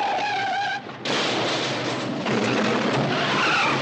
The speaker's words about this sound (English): Well, that's an old school Porsche, man.